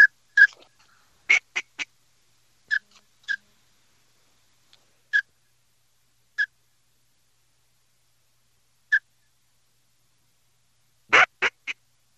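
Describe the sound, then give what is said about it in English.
Ducks quack near a duck blind in a field in the morning, sharp, nasal calls coming singly and in quick bursts of two or three, separated by silent gaps, with a final cluster of rapid quacks. “Now let's head down to the duck blind in the field. Check in live with Captain Bink Graham. See what he's up to this morning.”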